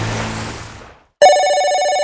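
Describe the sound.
A telephone rings with one bright, warbling electronic burst that starts after a brief silence and carries loudly to the end, following an earlier sound that fades out.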